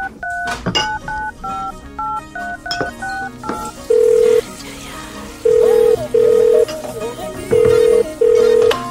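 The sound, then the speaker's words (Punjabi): Touch-tone keypad beeps as a phone number is dialed in a rapid run of short tones, then a ringback tone pulsing in steady paired rings while the call connects. “ਰੁਕ ਲਾਉਣਾ phone ਉਹਨੂੰ।”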